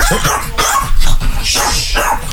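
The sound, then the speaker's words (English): Upset dogs bark loudly in a rapid, continuous run of overlapping barks. “The dogs are very upset you're leaving them for another bitch.”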